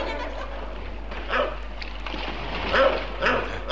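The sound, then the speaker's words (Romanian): A dog barking furiously, growing angrier, with three loud agitated bursts over a steady low hum. “ce-i cu câinele ăsta? E din ce în ce mai furios!”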